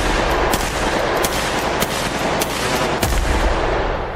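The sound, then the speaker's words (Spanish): Gunshots from a handgun fired repeatedly at a man until he is dead: several sharp cracks burst over a thick, rough wash of noise, coming in an uneven rapid series without any talking. “Con arma en mano, fue al lugar a donde se veían y le disparó hasta matarlo.”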